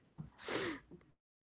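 A single sneeze bursts out as a sharp, breathy blast, with softer breathing before and after it.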